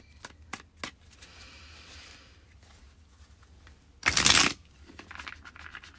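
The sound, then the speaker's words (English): Cards shuffled for a weekly card reading: a few soft taps at first, then one loud, brief riffling burst and a stretch of quieter rustling afterward, with no talk. “And now let's pull some cards for the week ahead.”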